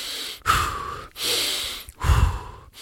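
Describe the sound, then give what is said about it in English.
Three deep breaths, each drawn fully in through the nose and then pushed forcefully out. The airy, rushing breath noise is steady and fairly loud, with short pauses between the breaths and no talking. “so that's just three breaths that I did. Breathing in fully and pushing. So I'm breathing in with my nose full”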